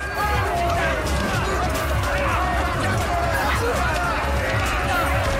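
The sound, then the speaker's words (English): A rioting crowd attacks armed guards, knocking them to the floor: a dense, unbroken din of many people shouting and scuffling, with scattered thuds and crashes, staying loud throughout. “Outside, the crowd is getting out of hand. People start to attack the armed guards, knocking them to the floor.”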